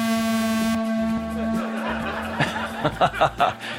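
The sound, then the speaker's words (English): Automated horn signalling the hour at a timed lap event, a sustained buzzy tone that is loud at first, then softens and drones on for a few seconds, followed by a few bursts of laughter and chatter. “two beeps for 2 minutes, 1 beep for 1 minute, and then a horn.”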